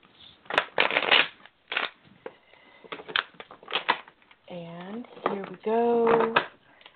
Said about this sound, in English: I'm going to shuffle my cards and pull some.